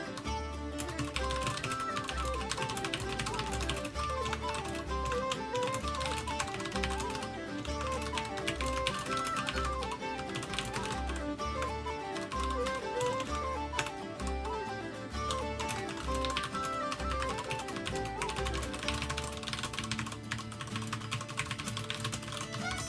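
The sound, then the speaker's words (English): Rapid keyboard typing as a text message is written: many quick, dense clicks running continuously over a steady, pulsing low backing, fairly loud from start to end. “Can you just type this out very quickly?”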